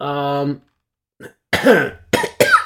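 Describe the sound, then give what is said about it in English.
A person coughing after choking: a brief voiced sound, a pause, then a few harsh, breathy coughs and throat-clearing bursts. “Sorry, I was trying to pause, but I choked, and I'm like, if I choke and die on this podcast, somebody needs to hear it.”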